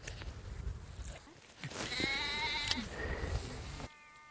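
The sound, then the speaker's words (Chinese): A young lamb with a leg broken in a fall bleats in a drawn-out, quavering cry, fairly faint, with a little low background noise before and after. “放牧途中，才人发现了这只摔伤骨折的小羊，就赶紧把它抱回家。”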